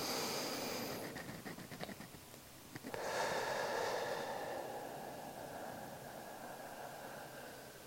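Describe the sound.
Slow, deep breathing in and out during a guided meditation exercise: a long, soft, airy hiss swells and then gradually fades, faint and unaccompanied.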